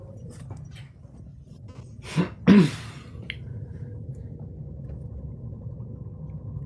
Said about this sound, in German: Dann brauchen wir nicht aussteigen, sondern fahren hier wieder runter vom Parkplatz.